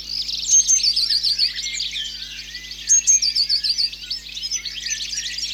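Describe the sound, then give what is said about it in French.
A blue tit, a lively small bird moving through trees, calls in two separate bouts of thin, high chirping notes. Quieter chirps fill the gaps, over a steady low hum. “La mésange bleue est très vive et pleine d'énergie. Toujours en mouvement dans les arbres. Mésange bleue.”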